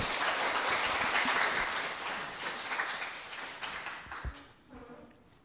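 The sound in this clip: Audience applause welcomes a professor invited to speak; the dense clapping holds steady, then thins and fades, with a few soft knocks near the end.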